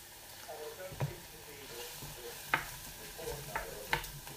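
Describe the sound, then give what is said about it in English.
Scrambled egg made from egg and milk cooking in a pan while being stirred, giving a faint steady sizzle broken by a few soft scraping strokes. “Now this cooks pretty quickly, you have to keep stirring it so it doesn't burn or stick.”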